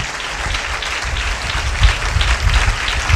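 A church audience claps hands in praise during worship, a loud, dense, continuous applause that holds steady from start to finish.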